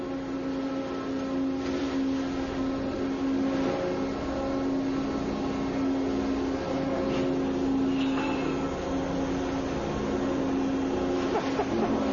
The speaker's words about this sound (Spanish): Me ha parecido ver que están probando los propulsores, ¿no es eso? Sí, tienen que probarlos.